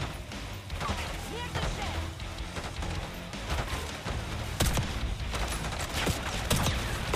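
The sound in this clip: Machine gun fire from an enemy gunner in a video game, a dense, continuous rattle of shots with a few sharper, louder cracks, set against busy battle noise with voices faintly underneath.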